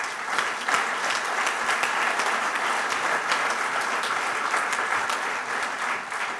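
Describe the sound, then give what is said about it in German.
Applause from the audience at an evening event, breaking in on the host: dense, sustained clapping from many hands that holds at a steady, moderate level for several seconds without speech. “vielen Dank, dass Sie mich unterbrochen haben mit dem Applaus.”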